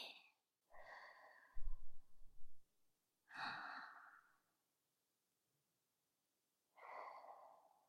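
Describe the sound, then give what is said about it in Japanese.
Slow, guided breathing in and out before a shoulder massage: three soft, drawn-out breaths with long quiet gaps between them. “では、もう一度。吸って、吐いて。”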